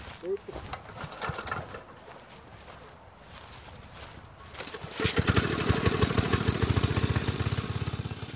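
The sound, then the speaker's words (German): A vehicle engine starts up and drives away: after quieter shuffling and clattering, a loud, rough, rapidly pulsing engine note takes over and holds steady, easing slightly toward the end. “Da fährt er uns davon, der Jakob.”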